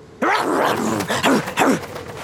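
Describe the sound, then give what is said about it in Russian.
A nasty little dog growls in the desert, giving a few rough, throaty growling bursts, loud and rising and falling in strength. “Да уж, вредная собачонка.”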